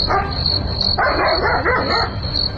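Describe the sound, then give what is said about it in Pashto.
A dog barking in a few rough bursts over a steady, high-pitched chirring like insects, with a constant noisy background and no talk. “نه پوهیږم چې دا سپی ولې غاپي.”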